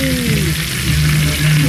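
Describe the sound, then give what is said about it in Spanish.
Pork with rice frying in a pan gives a steady, loud sizzle and hiss that runs unbroken for the whole moment, with a low hum underneath. “Se está cocinando, mira un poco. Chanchito con arroz, quesú.”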